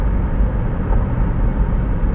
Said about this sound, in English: Another car coming. I'm gonna slow down a little bit.